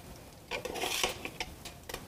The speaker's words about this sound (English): We're just going to take them out and quickly flip them over.